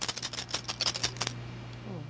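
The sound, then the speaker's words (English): Two dice rolled during a tabletop game session, a quick rattle of small clicks for just over a second, then quiet with a faint low hum. “two dice to roll. Yeah. Here goes. Two dice to start with.”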